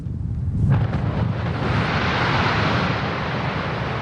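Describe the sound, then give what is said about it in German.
Blasting of 12,000 tonnes of limestone at a quarry in Wülfrath: a heavy explosive boom strikes early, then a loud, deep, sustained rumbling roar continues unbroken to the end. “So hört es sich an, wenn 12.000 Tonnen Kalkstein gesprengt werden.”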